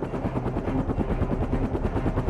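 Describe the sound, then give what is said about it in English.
A small MD-500 helicopter, single turbine with five blades, seating four passengers and a pilot, makes a rapid, steady rotor chop, loud and continuous with an even pulsing rhythm throughout. “So the helicopters we used are called MD-500s, small helicopter. They are for four passengers and one pilot, single turbine, five blades.”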